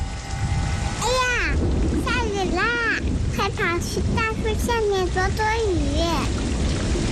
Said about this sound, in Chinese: 下雨了，收起风筝吧，雨天放风筝容易被雷电击到。